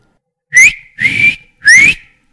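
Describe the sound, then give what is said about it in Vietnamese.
Three short, clear whistle blasts, each bending slightly upward in pitch, sounded alone in a dark underground space with brief silences between them. “Đúng lúc này phía trước vang lên tiếng còi khe khẽ.”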